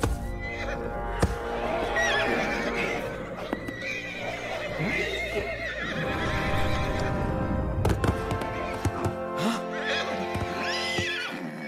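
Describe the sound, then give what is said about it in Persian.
A horse neighs in loud, high whinnies while its hooves clip-clop steadily underneath, with the hoofbeats running through the whole stretch and another whinny near the end. “اسب باهوشی همیشه اینجوری از دستمون فرار میکنه.”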